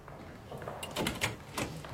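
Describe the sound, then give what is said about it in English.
A hospital room door being opened in a radio drama of A Farewell to Arms: a few brief knocks and rubbing sounds of the handle and door, faint and short, with no talk. “The nurse opened the door and motioned with her fingers.”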